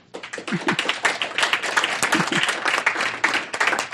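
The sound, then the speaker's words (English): Audience applause closing a Commonwealth Club of California environment and natural resources forum, rising quickly from near silence into dense, lively clapping that stays strong and uneven throughout. “And a big hand before you leave for both our audience and the radio audience with us. So one more big hand.”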